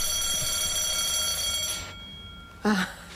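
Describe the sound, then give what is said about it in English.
A fire alarm set off by a power cut rings with a steady, piercing electronic tone for nearly two seconds and then cuts out, leaving low background noise. “Oh, sorry, that's the fire alarm. Every time there's one of these power cuts, it sets off the alarm.”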